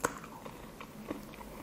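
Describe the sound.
Biting into and chewing a broken-off piece of crunchy healthy cereal, a few faint, crisp crunches with softer chewing sounds between them.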